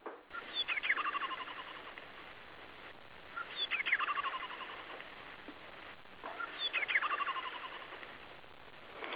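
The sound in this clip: Song of a tit with a blue cap and yellow belly: three bright, high trilling phrases separated by pauses, each with quick chirps at the start, moderately loud over a faint steady hiss.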